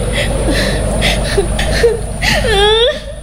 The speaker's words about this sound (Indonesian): Loh, kok malah nangis lagi?